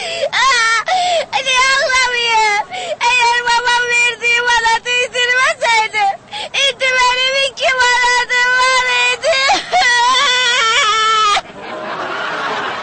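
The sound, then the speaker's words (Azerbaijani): A young girl cries hard, letting out long, high, wavering wails broken by quick catching breaths, with a short rush of noise at the very end. “Nə oldu? Nə oldu, ay qızım, niyə ağlayırsan?”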